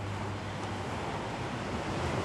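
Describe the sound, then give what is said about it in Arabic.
Sea waves breaking on the shore make a continuous, even roar of surf with a windy hiss, steady in loudness throughout, with no voices. “كنت اتمنى تكون معاي هون تشوف البحر زي ما انا شايفه، وتسمع الموج زي ما انا سامعه.”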